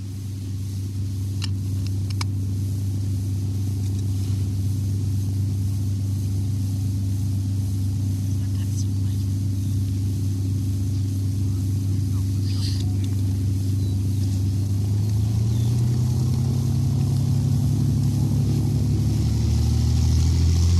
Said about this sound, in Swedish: har vi kommit fram till North American P51D Mustang. Och vi ska först lyssna på en startsekvens.